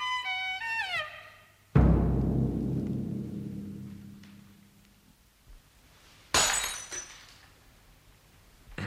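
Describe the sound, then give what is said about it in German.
A dropped glass shatters in a sharp, loud crash that rings and fades slowly. A few descending tones come before it, and a second, shorter burst of breaking glass follows some seconds later. “Sie haben das Glas fallen lassen”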